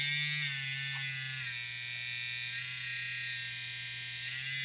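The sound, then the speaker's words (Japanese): Steady electric buzzing from a new vibrating rotor toy, a constant motor drone that holds an even pitch and loudness for several seconds, with no talk over it. “じゃあパンツの中にこの新しいロータを使っちゃいます。”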